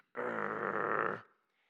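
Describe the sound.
A voice imitates a Labrador growling over a bone: one sustained, rough, buzzing growl that starts abruptly, holds loud and steady for about a second, then cuts off into a faint tail.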